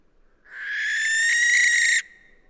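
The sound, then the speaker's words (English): A barn owl gives one drawn-out, rasping shriek, harsh and hissy, holding a steady pitch for about a second and a half before it cuts off sharply. Nothing else is heard around it. “The barn owls have the silence, the face, and above all, that ghastly shriek they do,”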